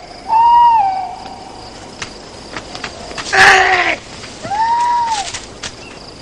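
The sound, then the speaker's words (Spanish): A barn owl flying low gives two drawn-out tonal hoots that waver and slide downward, separated by a brief, harsher noisy burst, over a quiet background. “La lechuza vuela rasante rozándole la espalda.”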